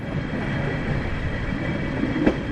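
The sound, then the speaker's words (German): A mountain railway train climbs toward 3,500 metres in the Alps, giving a steady, dense rumble of wheels and carriage noise with a single sharp click near the end. “Es ist heute wunderbar, mit dieser Bahn hochzukommen auf 3500 Meter zum Jungfraujoch.”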